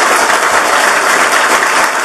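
Applause for a newly sworn-in mayor at a swearing-in ceremony, dense and steady clapping from an audience that stays loud and even for about two seconds with no voices over it.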